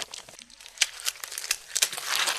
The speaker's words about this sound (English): Okay, so I'm going to unwrap this postcard that he sent us.